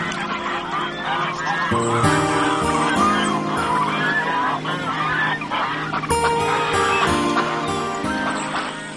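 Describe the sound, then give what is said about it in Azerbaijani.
Steppe ducks and geese on water honking, with many loud, nasal calls overlapping in a dense, continuous chorus of varied pitches. “Çöl ördəkləri və çöl qazları gördükləri işin mükafatı olaraq bu sularda doyunca üzüb sərinləmək haqqı qazandılar.”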